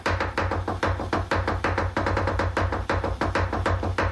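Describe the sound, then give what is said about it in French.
A knife chops celery into short pieces, a long run of many quick, crisp strokes at a brisk, even rhythm, with a low steady hum underneath. “je vais couper ton céleri. Oui, le céleri, je le coupe en longueur.”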